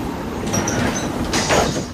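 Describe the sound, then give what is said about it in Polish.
A night passenger train on the Gdynia–Łódź Kaliska route in December 1970 rumbles steadily along the rails, with faint high wheel squeals and a brief swell of noise toward the end. “24 grudnia 1970. Nocny pociąg relacji Gdynia-Łódź-Kaliska.”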